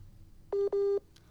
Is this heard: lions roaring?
no